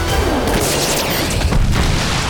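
Jets firing weapons and an explosion, a heavy booming rumble with dense, loud, continuous blast noise and whooshing sweeps on top.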